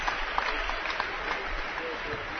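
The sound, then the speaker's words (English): Crowd applause from Winona State fans at a college basketball game, greeting a senior player as he comes to the sideline. The clapping is a steady, dense wash that holds throughout without clear breaks. “he comes over to the sideline, a senior, getting a round of applause from the Winona State fans.”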